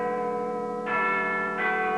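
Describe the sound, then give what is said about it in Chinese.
A school bell ringing for the end of class, a sustained, bright metallic tone with two fresh strikes partway through that renew the ringing, steady and fairly loud with no voices. “这时学校的下课钟声响了起来。”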